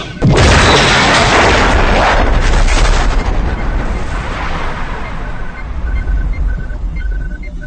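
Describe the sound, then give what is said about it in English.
Photon fire in a Star Trek video game sets off a loud explosion that bursts in abruptly and rolls into a dense, roaring rumble, thinning slowly over several seconds while a faint, repeating high beep runs underneath toward the end. “Romulus has been destroyed by Starbase 2S. Romulus has been destroyed by Starbase 2S photons.”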